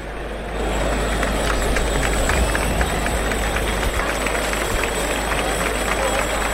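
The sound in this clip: A bullring crowd gives an ovation after the matador is awarded two ears for the third bull of a bullfight afternoon. The roar of the crowd is steady and sustained, and it swells up quickly in the first half-second.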